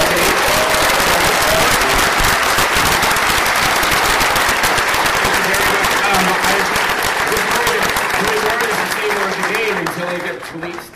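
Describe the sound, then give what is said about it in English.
An audience gives sustained applause at the close of a live talk in a room, dense, loud clapping that continues for about ten seconds before thinning and fading out at the end. “I'd like to have a round of applause for”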